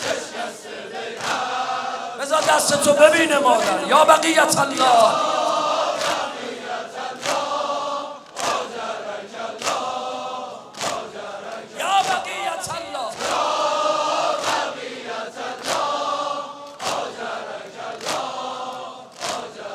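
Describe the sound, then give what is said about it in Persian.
A crowd at a mourning gathering chants in unison, with loud, sustained vocal phrases over steady, regular percussive beats that continue throughout. “این صدای جمعیت”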